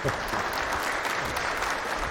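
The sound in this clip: Dense, steady applause from a church audience at Holy Family after Mass. The clapping holds at an even loudness for about two seconds, with no voices over it.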